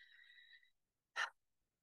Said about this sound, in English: I'm just taking a breath with that